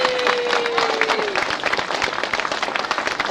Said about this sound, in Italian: io penso che di interpretare anche il pensiero della giuria, di rivolgere un applauso al comitato che ha saputo organizzare questa festa